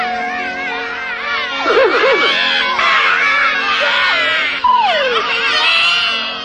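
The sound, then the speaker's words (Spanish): A child wails loudly and without pause, the cry wavering up and down in pitch with sobbing breaks throughout. “¿No querés callar? ¡Callate, te digo! Mira, la nena es como vos y no llora. ¿No te da vergüenza cómo te mira la nena? Va a pensar que sos un llorón.”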